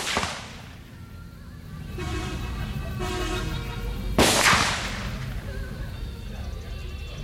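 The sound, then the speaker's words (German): Gunshots from real war weapons fired at a tourist shooting range at Cu Chi, Vietnam, aimed at tin animal targets: two sharp, loud cracks several seconds apart, over a constant rumbling background. “Haben Sie jetzt für ein Gefühl, wenn Sie damit echten Kriegswaffen geschossen haben in Vietnam?”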